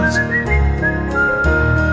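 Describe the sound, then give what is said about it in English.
A shopkeeper whistles a song to himself while sweeping: a clear, bright whistled melody of sustained and gliding notes over steady instrumental music. “Shopkeepers sweep as they whistle a song to themselves.”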